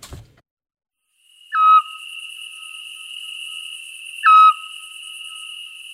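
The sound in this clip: A scops owl gives two short, clear whistled notes a few seconds apart. Under them runs a steady, high-pitched insect chirring and a thin continuous tone.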